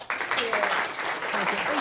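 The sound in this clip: An audience applauds to welcome a speaker at a talk on architecture and creativity. The steady, dense clapping carries on throughout, with a voice heard over it.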